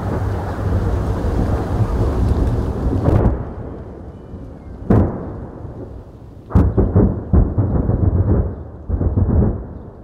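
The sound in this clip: Low, constant rumble of fighting near the border in the battle for Kharkiv, a steady heavy roar broken by a few sharp, booming blasts, with no voices.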